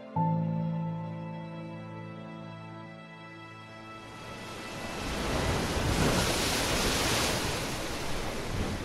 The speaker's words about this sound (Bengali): দুর্গাগতি বাবুর বাড়ির ছাদ থেকে সমুদ্রটা যে আরো কত বিশাল দেখায় সেটা আজ ছাদের পাঁচিলের ধারে দাঁড়িয়ে বুঝতে পারলাম।